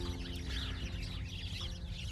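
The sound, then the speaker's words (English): Chickens clucking softly in a steady, low murmur of overlapping clucks that stays faint and even throughout. “The birds tend to agree as well.”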